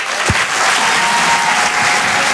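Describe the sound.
Loud applause from a comedy club audience at the Apollo Théâtre in Paris: dense, continuous clapping that stays steady and full throughout, with no voices over it.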